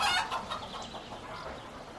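Clucking of a white hen: a few short, nasal clucks in quick succession, fairly faint, with the strongest call at the start.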